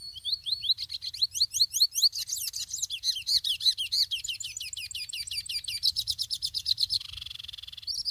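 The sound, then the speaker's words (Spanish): Song of a mochuelo bird: many rapid, high chirps repeated in a fast, steady rhythm, shifting to a quicker trill near the end, over a faint low rumble. “Entonces ese mochuelo que canta y entre más viejito está, canta más bonito.”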